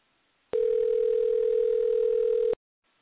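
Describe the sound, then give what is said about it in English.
A telephone dial tone while a call is dialed: a single steady, unbroken mid-pitched tone lasting about two seconds that starts and stops abruptly, with no talk over it. “At least we have dialing this time. We have Sherwood. Dialing.”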